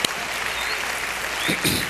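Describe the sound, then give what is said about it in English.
A church audience applauds the children, a dense, steady clapping that holds at an even loudness from start to finish. “I wanted to welcome all of our super kids in church today. Would you give them a great hand?”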